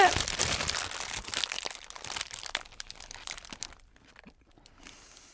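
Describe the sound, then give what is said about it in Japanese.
Wrapper crinkles and crunches as a gratin croquette burger is unwrapped and bitten into, a dense run of rustles that starts loud and fades to near quiet toward the end. “ちょっとコロッケだよいただきます”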